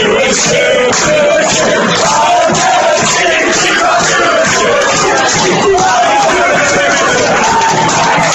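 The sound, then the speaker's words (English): A pub crowd chants loudly in unison, a dense, continuous wall of many voices with sung pitch lines running throughout. “Listen to the crowd at the pub all singing, I've never seen Hugh Grant do a shoe.”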